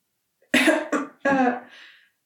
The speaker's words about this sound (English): There's a long silence, followed by an awkward, very feminine cough.